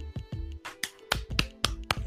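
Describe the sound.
Quick finger snaps ring out in an irregular series of many sharp, crisp clicks, fairly faint, over a steady low hum.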